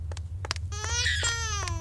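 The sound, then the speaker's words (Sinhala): An infant bursts into a loud, wailing cry after a few short whimpers, the harmonic sobs rising and wavering over a low rumble. “අන්න අන්න බබා අඬනවා.”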